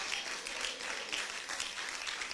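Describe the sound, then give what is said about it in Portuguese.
Church audience clapping during a worship service, a fairly faint but steady, dense patter of many hands sustained through the whole moment. “Glorifica a Deus com as palmas.”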